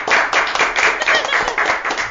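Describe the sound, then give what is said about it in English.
A few people clapping in a studio, quick loud claps in short uneven bursts that run through the whole moment. “Lucky man. We'll just applaud him.”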